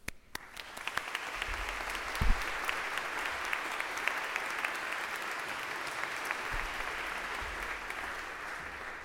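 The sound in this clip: Warm audience applause welcoming a bishop and his family at a university baccalaureate service, many hands clapping in a dense, even wash that swells at the start and holds steady for several seconds.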